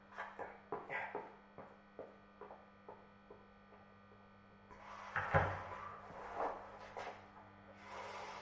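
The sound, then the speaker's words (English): A kitchen cupboard door is opened and closed, making a quiet series of many wooden clunks and taps. A louder knock comes later, over a faint steady mains hum. “Middle cupboard on the left, isn't it? Empty.”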